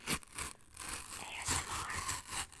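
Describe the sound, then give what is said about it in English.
A paper envelope is torn open in a continuous, fairly quiet rasp of tearing and crinkling, with several stronger bursts through the rip. “All right, we're going to open the envelope.”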